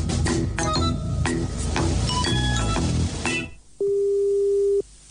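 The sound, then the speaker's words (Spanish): A telephone line tone sounds while a call is being placed: one steady, even beep lasting about a second. It follows a stretch of clinking, chiming musical sound that cuts off just before it. “Estoy llamando a Alejandra Costamagna”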